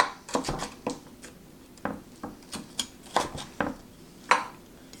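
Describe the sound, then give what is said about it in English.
Sharp kitchen knife with a finger guard slicing food into thin slices, giving many short, crisp cutting clicks in an irregular rhythm, moderately loud against a quiet background with no talk. “I'm pretty impressed with this knife. It cut through anything I put in front of it. Made nice thin slices, it's sharp.”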